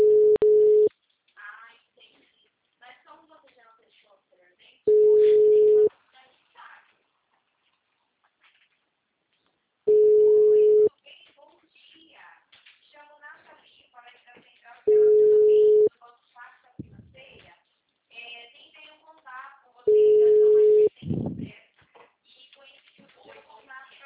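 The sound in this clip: An outgoing call's ringing tone repeats as five evenly spaced tones, each about a second long and steady in pitch. People talk in the gaps between the rings.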